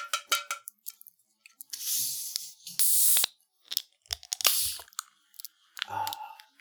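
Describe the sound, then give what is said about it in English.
Bottles of old-fashioned draft-style root beer being opened: a couple of short, sharp fizzing hisses among scattered clicks and clinks. “I have a genuine old fashioned draft style root beer. Nice. This, you know, good pairing, I think. It really is. Let's crack them open.”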